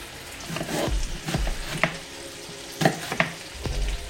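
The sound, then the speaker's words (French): Sliced red Italian onions sizzle as they fry in a pan, giving a steady hiss broken by several sharp clacks as they are stirred, with no talk. “Je vais ajouter un oignon rouge.”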